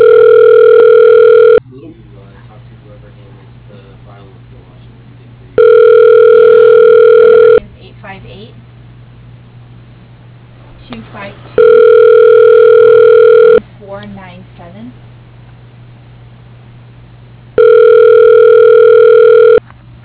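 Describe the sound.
Four long, steady ringback tones sound on a telephone line as a call is transferred to voicemail. Each ring lasts about two seconds, and a person talks in the gaps between them.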